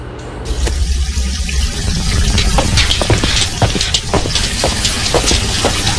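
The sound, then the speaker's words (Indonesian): A tap opened wide runs water from the PDAM municipal supply, a loud, continuous rushing gush with steady splashing and no pauses. “Kok seperti ada suara air? Iya, Pak, benar. Itu mumpung air dari PDAM-nya mengalir. Jadi, Ibu buka besar ya kerannya?”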